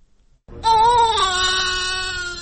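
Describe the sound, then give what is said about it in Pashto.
A newborn baby cries in the maternity ward of an aid-organization hospital in Khost: after a brief quiet moment, one loud, sustained wail begins and continues with a steady, slightly wavering pitch. “دا د هغه ماشوم د ژړا اغږ دی چې تازه د خوست د ایم ایس ایف یا د بیپول ډاکټرانو په زیږنتون کې پیدا شوی.”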